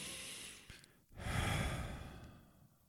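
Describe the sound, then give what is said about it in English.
A person takes a slow, deep breath to calm down from rushing. A long, breathy rush of air swells and then gradually tapers off, alone and without speech. “I'm in a rush this morning, and then taking a deep breath.”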